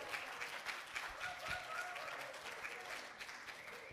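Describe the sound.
Audience applause welcoming a guest speaker, a faint but steady patter of many hands clapping that carries on evenly without a pause.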